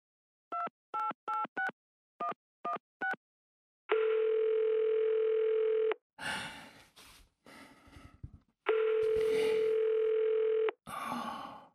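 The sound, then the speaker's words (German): Telephone keypad tones, seven short beeps in two quick groups, dial out a call, then two long steady ringing tones of about two seconds each follow, with rustling and breathy noise between and after them. “Dann griff er zum Telefon und rief Laser an.”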